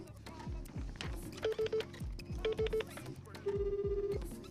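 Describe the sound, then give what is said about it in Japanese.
Telephone ringback tones from a call being dialed: a few groups of short, steady beeps and then one longer tone repeat over a busy music-like backdrop, with people talking. “先ほどかけた方から、うん、なんかちょっと折り返しがあったっぽいんですけどももう一回かけてみますねもう一回かけてみますはい”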